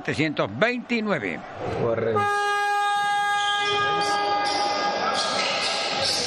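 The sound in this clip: A horn blares at a football match after brief talking. The loud, steady multi-tone blast is sustained for about four seconds.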